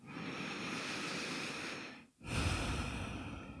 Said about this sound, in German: Und mit all dem, was gerade für dich präsent ist, im Hier und Jetzt landen, nochmal tief ein- und ausatmen.